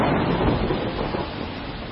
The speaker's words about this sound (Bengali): বাইরে ঝড় আর তার সঙ্গে বৃষ্টি।